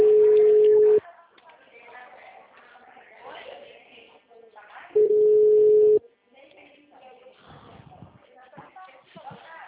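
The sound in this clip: Telephone tones on a call that has dropped: two long, steady, mid-pitched beeps about four seconds apart, with a person talking between and after them.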